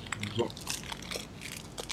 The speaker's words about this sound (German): Ich esse eine Gewürzmandel, die noch von Weihnachten übrig ist. Ein bisschen in so einer Plastiktüte. Und muss ein bisschen knistern.